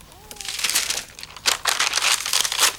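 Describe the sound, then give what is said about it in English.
Paper crinkles and rustles as someone rummages through documents on a table, with dry, bursty crackling that grows denser and louder in the second half. “rummages among the documents on the table”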